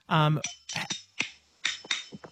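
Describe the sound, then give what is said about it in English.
Very old silver spoons played as a percussion instrument give a series of sharp metallic clacks in an uneven rhythm after a brief voiced sound at the start. “that's just some very old silver spoons that I usually play.”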